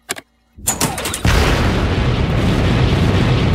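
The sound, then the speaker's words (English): Spaceship retro rockets firing to slow the craft out of orbit: a brief click, then several rumbling bursts and pops build into a loud, steady roar that holds to the end. “In space camp, we learned about countering forward momentum with retro rockets. If we use them now, the ship might slow down enough for gravity to pull us out of orbit.”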